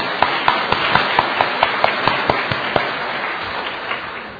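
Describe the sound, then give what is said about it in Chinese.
Rhythmic clapping from a gathering welcoming three newcomers: about a dozen sharp, evenly spaced claps in unison, then the clapping tails off into near quiet. “今日我哋有三位新朋友，我一齐鼓掌欢迎佢哋。”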